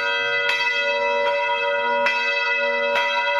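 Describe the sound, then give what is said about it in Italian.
Church bells ring festively with four strong strikes at a steady pace, each leaving a bright, sustained ringing hum between the blows. “Le campane a festa le abbiamo già suonate una volta per annunciare l'indicibilmente bello libro di Michele Mari su Giacomo Leopardi.”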